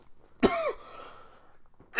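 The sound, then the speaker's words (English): A single harsh cough bursts out sharply and trails into a short raspy breath, with the start of another cough at the very end. “my bad, I was coughing, I might have to edit that out.”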